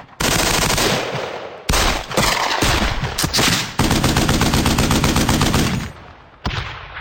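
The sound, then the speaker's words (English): Loud gunfire effects from revolvers, rifles, shotguns and automatic weapons of various calibers: dense rapid bursts and overlapping shots pound almost without break, with a few brief gaps between volleys. “2,000 sound effects include a broad range of revolvers, rifles, shotguns, and automatic weapons of many different calibers.”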